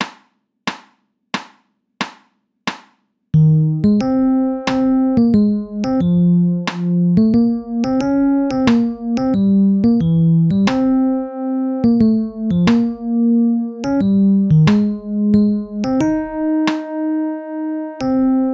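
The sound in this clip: Metronome clicks ring out alone, four sharp ticks, before a melodic line in triple time begins. The click then sounds only on the second beat, as faint ticks under the steady, sustained notes.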